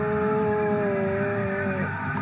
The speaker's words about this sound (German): Die lenkt gut, ne? Ich finde, die, die lässt sich gut fahren. Die fährt sich gut, die Corvette.